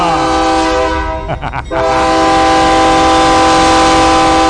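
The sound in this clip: A loud vehicle horn gives a sustained, rich, brassy blast with many layered tones. It is held across the whole clip, with a short dip and wavering in the middle before it resumes at full strength.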